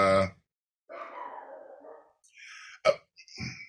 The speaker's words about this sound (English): hold on, can you hear my dog? I can hear your dog.